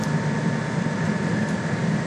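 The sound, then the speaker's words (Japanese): A constant hum fills the deck of the Shinkansen Nozomi 244 bullet train, a smooth low rumble with a layer of hiss and no distinct events. “さて、電話をする人でなかなかにぎやかになってまいりました。新幹線のぞみ244号のデッキなんでございますが、構わずまいります。”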